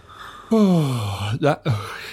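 A single yawn starts with a long voiced sound that slides steadily downward in pitch, then trails into a few short breathy vocal sounds.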